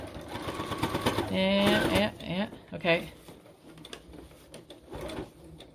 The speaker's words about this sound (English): Alright, sew you down. I'm gonna sew you down.